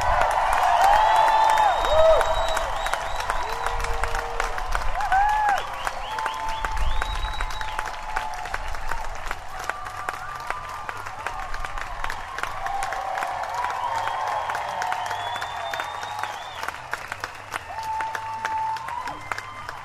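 Music festival audience applauding and cheering: dense, sustained clapping with whoops and whistles rising over it. The sound stays loud and steady throughout, with no speech.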